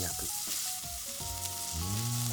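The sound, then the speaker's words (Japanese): Sizzling of salt-and-pepper-rubbed beef round searing over high heat in an oiled frying pan, a loud, continuous crackling hiss that holds steady across the whole clip. “フライパンに油を引いて、強火で全体を焼く。”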